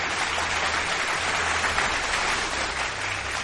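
An audience applauds with steady, dense clapping that stays even throughout, with no voices standing out.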